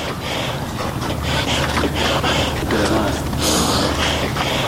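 Heavy, labored breathing of a mountaineer from Firozkoh climbing Siahkoh peak: a continuous breathy rush of gasps and snorting exhalations that stays loud throughout.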